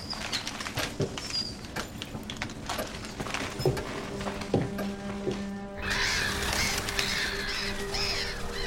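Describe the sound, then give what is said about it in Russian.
Seagulls call while flying over the sea in the morning, giving scattered harsh cries over a steady wash of background noise that swells louder partway through. “Утро. Над морем летят чайки.”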